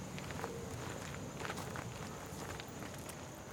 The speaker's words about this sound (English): Remove your headphones, hit pause, walk in silence to our next stop.